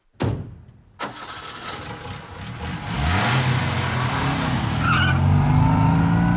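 An early motor car engine bursts into life with a couple of sharp starting coughs. It then settles into a loud, continuous running roar whose hum climbs in pitch as the car pulls away.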